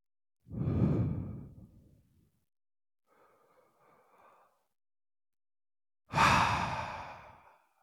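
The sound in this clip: Two deep breaths taken as part of a breathing exercise: a long, loud breathy rush, a faint soft breath, then a second strong breath that tails off slowly, with no talking.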